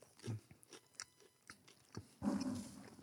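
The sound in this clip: Crunchy bites and chewing of a savory burekas pastry, a flaky baked croissant-like snack. A few faint, crisp crunches are followed by a louder burst of crackly biting near the end.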